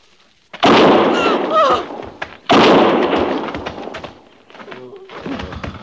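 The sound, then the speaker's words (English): Two loud, sharp gunshots are fired at a man, about two seconds apart. Each is a sudden broad blast with a long, ringing tail, followed by quieter low rustling sounds. “One more step and I'll fire.”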